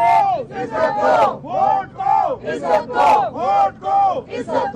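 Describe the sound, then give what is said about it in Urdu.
Party workers chant slogans in unison outside Adiala jail, where a large crowd gathered to see Nawaz Sharif. Loud shouted phrases repeat in a steady, rhythmic call pattern throughout. “Nawaz Sharif سے ملاقات کے لیے کارکنان کی بڑی تعداد Adiala jail پہنچی تھی، جہاں انہوں نے نعرے بازی بھی کی۔”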